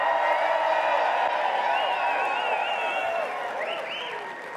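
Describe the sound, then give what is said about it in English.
A GCF North audience applauds and cheers at a 20-year anniversary gathering. Dense clapping is punctuated by high whoops in the middle and near the end, and the sound fades gradually over the final second. “All right, GCF North, please make some noise.”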